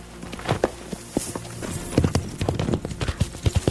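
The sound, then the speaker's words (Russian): A ridden horse gallops, its hooves making many quick, uneven clops over a steady background hiss. “Перепелкин садится на лошадь, скачет на впереди Зурова.”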